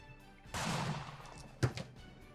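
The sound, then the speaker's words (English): A die is rolled on a table during a tabletop game. A faint rattling roll lasts about a second, then a single sharper knock and a smaller tap follow. “Please roll the die.”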